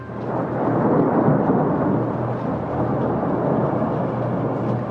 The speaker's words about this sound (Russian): Очередной раскат грома встряхнул шатер.